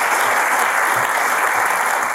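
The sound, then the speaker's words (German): Applause from a studio audience, a thick, even patter of many hands clapping at a constant, fairly loud level with no breaks. “Wir klatschen für euch.”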